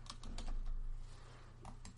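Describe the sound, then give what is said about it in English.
Typing on a computer keyboard: a quick, faint patter of many light clicking keystrokes in an uneven rhythm, heard alone without voices. “I'm trying to type in the dark here.”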